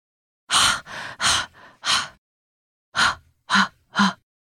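Heavy, rasping panting of a man and his dogs on the silent Antarctic ice, pushing toward a summit in short stages: loud breathy gasps in a quick run of about five, a pause, then three more.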